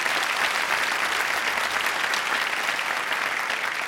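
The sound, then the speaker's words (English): Audience applause welcomes two guest book authors: a dense, even wash of clapping from a crowd that holds steady and loud for the whole stretch, with no voices rising above it. “Please welcome to eTown Ross Handfler and Brett Johnson. A big hand, if you would.”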